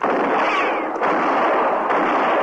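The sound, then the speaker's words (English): A gunshot fired at a man fleeing toward horses near dusk: a loud, sustained burst of harsh noise with a brief falling whine early on, and no talk. “I'll see about the man I shot.”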